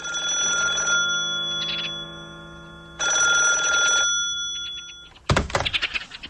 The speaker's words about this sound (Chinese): 这时电话铃响